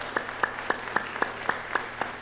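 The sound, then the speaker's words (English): A church audience claps together in a steady, even rhythm: eight sharp, moderately loud claps at a brisk regular beat, with no talk over them. “Let's give the Lord a great clap offering.”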